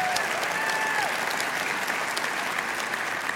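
A church audience applauds in welcome on Easter Sunday, a dense, steady wash of clapping that holds at an even level, with a few thin whistle-like tones rising above it early on.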